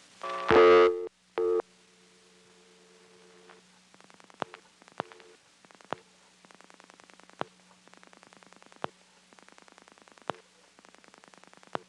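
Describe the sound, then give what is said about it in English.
Step-by-step tandem telephone exchange dialing out a 10-digit number: two short, loud tone bursts, then many rapid trains of sharp dial-pulse clicks in separate groups over a steady low hum. “You'll hear it dialing out the 10-digit number, but you won't be able to hear the billing clicks because I'll be having to dial the extra zeros during that time.”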